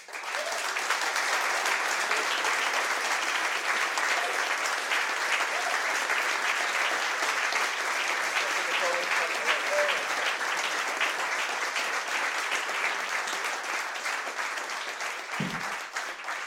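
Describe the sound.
Audience applause welcoming a guest at an evening event: continuous, even clapping from a crowd that holds steady throughout, with a brief low thump near the end.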